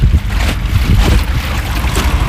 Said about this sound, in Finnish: sinne on mahdollista tulla myös veneellä